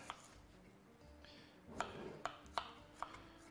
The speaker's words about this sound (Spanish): Este ajo, como es muy gordo, le voy a dar un cortecito así a la mitad. Y ahora ya lo cortamos en cuadraditos.